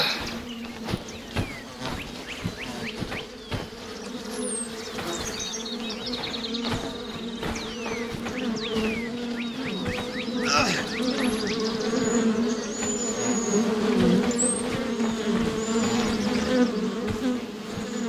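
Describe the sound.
Bees buzz around a hive in a dense, continuous drone that fills the whole clip, with individual insects flitting in and out and growing slightly louder toward the end.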